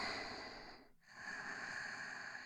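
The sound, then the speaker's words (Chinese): Soft, close-up breathing with a hushed, airy hiss. One long breath is broken by a brief pause near the middle before another breath continues. No talking is heard. “你现在只感觉得到我的呼吸”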